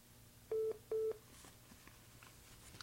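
Two short electronic telephone tones from an incoming call signal sound in quick succession, steady in pitch and moderately loud over a faint, quiet background.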